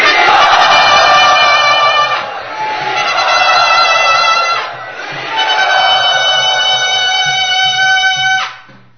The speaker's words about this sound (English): Let us very loudly and enthusiastically welcome Navayovanam Prabhu.